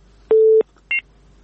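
Telephone tones as a listener's call to a radio phone-in from Helmand province drops: a steady low beep of about a third of a second, then a shorter, higher beep, with no talk.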